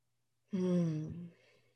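A long, audible exhale during a breathing moment, with a voiced, sighing tone that holds for under a second and then fades into a softer breathy tail.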